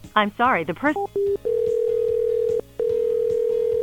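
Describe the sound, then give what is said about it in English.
On an outgoing phone call, a ringback tone follows a short stretch of talk. The steady, low beeping rings, pauses briefly, then rings again. “Oh, crap, that was two rings.”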